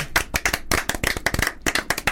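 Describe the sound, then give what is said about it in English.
One person clapping alone, a quick, uneven run of many sharp hand claps with short gaps between bursts, moderately loud. “I was clapping myself then, is that all right?”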